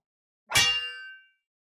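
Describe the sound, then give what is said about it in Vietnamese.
A fist strikes a silver chain, which shatters with a crisp sound: a single sharp, bright metallic clang with shimmering high ringing tones that decay in under a second, alone in silence. “Nắm tay của Diệp Phàm va chạm vào cái sợi xích bạc, chỉ nghe thấy một tiếng vỡ giòn tan. Sợi xích đã vỡ vụn”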